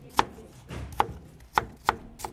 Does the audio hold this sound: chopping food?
yes